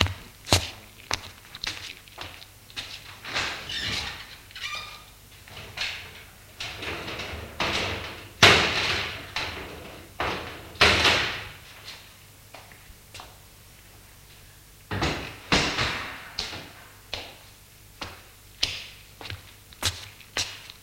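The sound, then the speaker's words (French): Window shutters being opened and curtains drawn closed in a bedroom: many sharp clicks, knocks and brief sliding rustles in an uneven rhythm, some louder bangs among softer handling noises, with no talk. “Il va ouvrir les volets et fermer les rideaux.”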